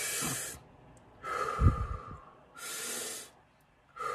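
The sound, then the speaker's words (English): Slow, deep breathing drawn in from the stomach: airy inhales and unforced exhales alternate in a few long, hissing breaths with quiet pauses between them. “breathing in deeply from our stomach, from our lower stomach into our chest and then into our brain. So, and then exhaling without any force.”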